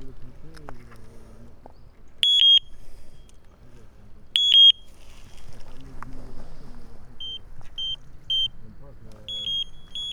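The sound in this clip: An electronic bite alarm on a fishing rod, used while fishing with wheat as bait, beeps in high, clear tones: two longer beeps, then a run of several short ones, while a man talks steadily underneath.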